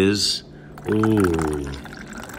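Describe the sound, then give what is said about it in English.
Tea pouring into a cup at a Peking duck restaurant: a short, bright splash of liquid lasting under half a second, followed by people talking. “That's the sound of tea being poured.”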